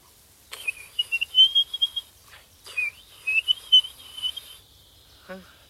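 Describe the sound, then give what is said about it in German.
Whistled imitation of a blackbird's song: two bright, high warbling phrases with quick slurred notes and trills, separated by a short pause, followed by a brief fainter note at the end. “Ich mach mal vielleicht eine Amsel nach. Denn dann kommt er vielleicht, um sie zu verjagen.”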